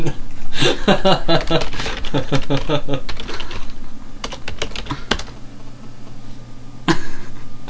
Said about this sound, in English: I thought you just typed in overcocker then. Let's try that and see what happens.